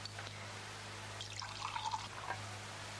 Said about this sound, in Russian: И вот медленно вливаю холодную воду понемножку.